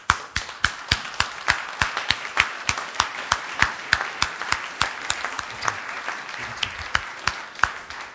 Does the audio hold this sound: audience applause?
yes